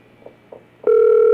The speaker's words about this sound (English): What's his number? I'm calling a cell phone.